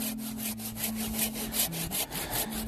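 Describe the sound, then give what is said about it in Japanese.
A hand saw cuts through a standing tree during mountain forestry work, making fast, even rasping strokes in a steady rhythm with a low hum beneath. “この木をねノコで切るっていうね”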